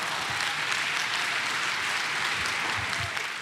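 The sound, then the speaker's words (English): Applause fills a church service as the audience stands to welcome a pastor coming up to preach: dense, steady clapping from many hands that holds at an even level throughout. “would you stand to your feet and put your hands together and welcome Pastor Jess as he comes to open up God's word to us today.”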